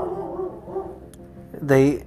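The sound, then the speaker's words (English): A dog lets out one loud, yelping bark near the end. Low murmuring voices talk before it. “And as the dogs barked in the background on their way out there, she's like, "I would love to do something."”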